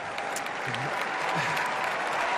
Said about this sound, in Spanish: Voy a decir, y le cortan los aplausos del público